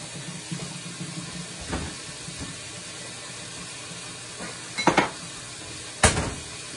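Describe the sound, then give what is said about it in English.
Clanks and scrapes of a cooking pan being cleaned in a kitchen: faint scattered knocks, then a few sharper metallic clatters near the end against a quiet background. “I have to clean out this pan.”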